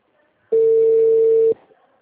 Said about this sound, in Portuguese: Tô tentando fazer ligação.